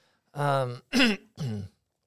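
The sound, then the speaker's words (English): A person with allergies clears their throat in three short, rough, voiced bursts separated by brief pauses. “I apologize for that clearing my throat”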